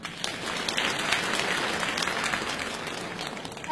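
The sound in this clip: Dense, steady applause fills a stage contest for children's comedy sketches as a young performing pair from a children's art school is welcomed on. The clapping is a continuous wash at moderate level with no voices over it.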